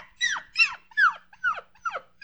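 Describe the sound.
A puppy whimpers in five high, thin whines that each slide downward in pitch, evenly spaced in a steady rhythm, with the start of another cry at the very end.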